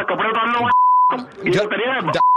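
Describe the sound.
A steady, high electronic beep from a phone call being cut off, sounding in short gaps between bursts of people talking.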